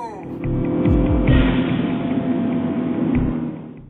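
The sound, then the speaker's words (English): A van's engine in a video game revs up as the driver floors the gas, a loud, rough motor roar whose low pitch sweeps upward several times before holding steady and easing off. “Alright, let me drive back to the where the mummy was and kill him now. Ah! Hold on tight. I'm going to punch the gas.”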